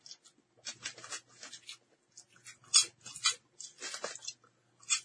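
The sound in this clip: Crunchy coconut curry-flavoured snack being chewed, producing many quiet, crisp crackling bursts in an irregular rhythm with no talking.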